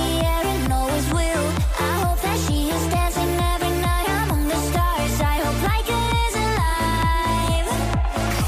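A pop song, Ireland's Eurovision entry for 2025, plays as a loud, continuous full mix over a steady, driving rhythmic beat, with a bright melodic line running on top throughout.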